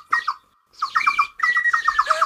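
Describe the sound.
Long-tailed meadowlark calls: bright, clear chirping notes in three bursts, a short pair first, then longer quick runs of repeated notes, with no talk.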